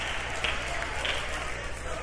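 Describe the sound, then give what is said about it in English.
Faint clapping from a church audience during a sermon, a soft, even patter of many hands that continues without a clear break. “Oh, don't try to get in on it now. You should have clapped when I first said it.”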